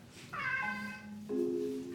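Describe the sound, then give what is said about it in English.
A cat meowing when it wants something: two drawn-out, tonal meows follow each other without a break, the second lower in pitch, and a third begins at the end. No talk. “There are sounds a cat makes when it wants something.”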